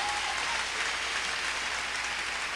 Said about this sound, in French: Bat bravo pour Jésus-Christ, mon ami.